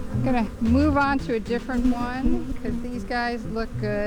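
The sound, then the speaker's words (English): Honeybees buzz at a backyard beehive, a low, steady droning hum beneath a person talking throughout. “WUSF brings you neighborhood sounds like this from a backyard beekeeper.”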